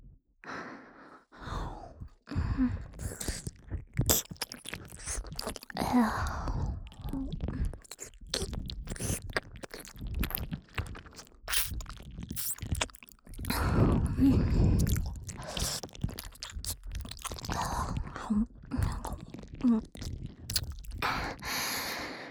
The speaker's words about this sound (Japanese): こんな風に耳を舐めたりすると皆さんに喜ばれますね。